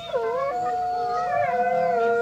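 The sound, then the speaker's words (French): Wolves howl at night in a forest, several drawn-out, tonal howls overlapping at different pitches, holding steady and fairly loud throughout with no talking. “Les loups qui se promènent dans les forêts la nuit, avec des yeux qui brillent et qui braillent des « ouh » qui font très peur aux brebis et aux moutons.”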